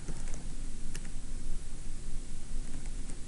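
Code being typed on a computer keyboard: a continuous stream of quick, light key clicks at a brisk, fairly even pace over faint background hiss.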